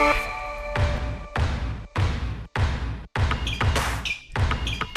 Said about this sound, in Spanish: Sintonía de básquet